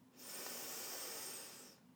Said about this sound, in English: And take a deep breath in. And out. One more. Deep breath in.